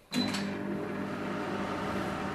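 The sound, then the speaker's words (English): A microwave oven runs with wet wheat grains rotating inside in a southern Italian kitchen: a steady, even low hum that starts abruptly after a brief click and holds unchanged to the end. “Wet wheat grains rotate inside a microwave. They're ready.”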